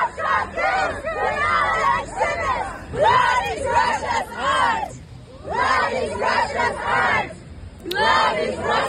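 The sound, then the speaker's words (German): Protest chanting by Femen and Pussy Riot activists at the Venice Biennale, in front of the Russian pavilion: a group of voices shouts in rhythmic bursts, repeated chant phrases separated by brief pauses, loud and insistent. “Es gab Proteste zum Beispiel von den Aktivistinnen von Femen und Pussy Riot. So klang das hier.”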